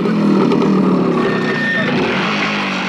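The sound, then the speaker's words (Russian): Motorcycle engine running in a loud, continuous, slightly uneven rumble for the whole stretch, holding a steady pitch with no clear revving. “Разгоняю дым от мотоцикла Савранского.”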